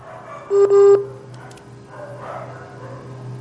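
Telephone keypad tones as a number is redialed after a wavering call signal. Two short, bright beeps sound back to back, followed by a faint, low, steady hum.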